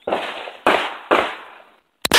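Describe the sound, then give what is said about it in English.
Pistols and a shotgun fire at a gun range. Three loud booms each trail off in a long decaying tail, then two sharp cracks follow close together at the end. “We went to a gun range today, and we shot two pistols and one shotgun.”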